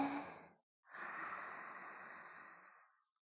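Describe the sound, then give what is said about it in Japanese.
A deep breath drawn during a relaxation breathing exercise: a short airy breath, a brief pause, then a longer, steady breath of about two seconds that fades out, with no talk. “じゃあ、もう一度、吸って、”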